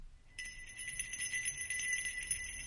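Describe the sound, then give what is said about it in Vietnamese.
A jingling soul-calming bell rings through a mountain valley: a bright, shimmering high-pitched tone begins after a brief silence and keeps pulsing faintly to the end. “Tiếng chuông leng keng vang lên khắp cả sơn cốc.”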